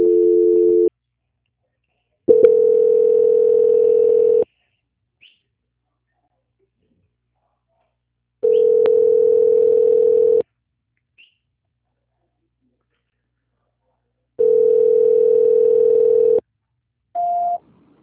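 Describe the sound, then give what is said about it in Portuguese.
Telephone ringing tone heard on the line while a call to a bank is being transferred: steady, level tone pulses of about two seconds each, separated by longer silences, then a short higher beep at the end. “peço que aguarde na linha e vou transferir para o controle de qualidade do Banco Santander”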